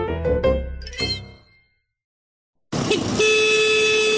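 A police vehicle's horn sounds at night on a beach to halt riders of illegal sand buggies. It gives a loud, steady, tonal blare, cuts out to brief silence, then sounds again as a sustained note.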